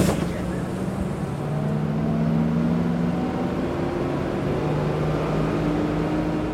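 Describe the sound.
A bus rides into the town centre, its engine giving a steady low drone with road rumble and faint humming tones that run unbroken from start to finish.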